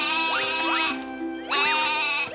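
A goat bleats in two loud, wavering bursts separated by a short lull. Its cries sweep up and down in pitch over a steady tonal background.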